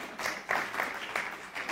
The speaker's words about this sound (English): Absolutely worth a round of applause for Matt Crouch, don't you think?